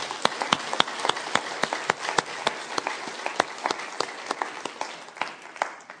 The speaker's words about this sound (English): When you want to give appreciation to another human being, you can clap your hands.